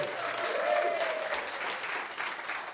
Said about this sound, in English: Give yourselves a big round of applause.